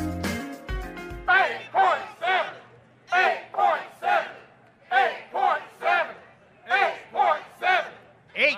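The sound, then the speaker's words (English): Crowd voices chant at a union rally near the Capitol backing a federal pay-raise bill, loud rhythmic shouted phrases repeated in many regular bursts after a short musical tone at the start. “The sound you just heard was voices at a union rally last week near the Capitol to support a”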